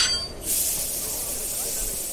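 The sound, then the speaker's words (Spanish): Steam hissing from a train arriving at a wartime camp about 90 km from Berlin in bitter winter cold. After a short quieter start, a loud, sustained high hiss sets in and runs to the end. “Cada día un tren con miles de personas para su entrada.”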